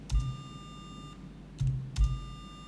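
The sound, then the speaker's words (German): A steady, generated electronic beep tone from tone-generation software holds evenly, drops out briefly in the middle and then resumes. A few low, dull thumps sound underneath it. “jetzt kann ich also erstmal einen normalen Beepton generieren. Sagen wir mal 800 und das jetzt für 1000 Sekunden.”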